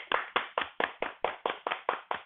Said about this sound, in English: So, let me clap it up for you guys.